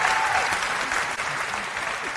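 An audience applauds to welcome a guest, a dense, steady clatter of many hands clapping at an even level throughout.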